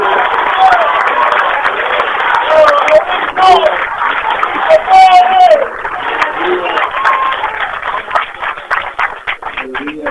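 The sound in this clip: Applause for President Mauricio Macri at an airport ceremony in Tucumán marking a runway extension: a dense, steady wash of clapping that runs throughout, with voices talking over it.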